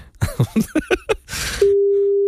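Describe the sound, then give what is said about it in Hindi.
A steady, single-pitched phone line tone sounds as a call is placed. It follows a short run of voiced syllables and a brief noisy hiss, then holds unbroken and fairly loud to the end. “एक second रुक जाओ, मैं call कर रहा हूँ.”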